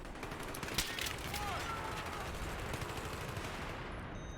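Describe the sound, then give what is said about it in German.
Gunfire in the video game Battlefield, a dense, fairly quiet rattle of automatic shots and bursts running on without pause, with one sharper crack near the start. “Oh ne, das ist ja Battlefield, da muss man den Scheiß erst kaputt machen, dass man retzen kann. Da muss ja immer die Boxen erst kaputt schießen.”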